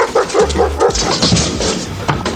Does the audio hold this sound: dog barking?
yes